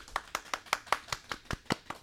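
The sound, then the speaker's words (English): Hand clapping applauds an organiser of car events in Texas, a quick, evenly paced run of sharp, crisp claps with no voices over them. “So let's give it a round of applause for Eli.”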